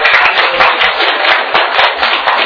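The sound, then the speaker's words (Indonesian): Applause from an audience thanking two panel speakers after a discussion: a steady, dense patter of many hands clapping at once, loud and even throughout the short stretch. “Dan kita mari aplaus kepada kedua beliau.”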